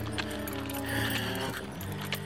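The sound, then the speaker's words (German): Hooves of a trotting donkey clip-clop in a steady, quick rhythm, moderately faint over a sustained tonal background. “Hey, du blöder Esel, nicht so schnell.”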